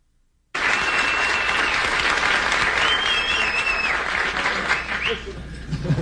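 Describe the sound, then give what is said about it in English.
A television talk-show studio audience standing and applauding the Apollo 13 crew in 1970: loud, sustained applause that bursts in suddenly and continues evenly, with a whistle rising through it. “that is the first time since I've been doing this show in 7.5 years that I've seen an entire studio audience get to their feet and applaud”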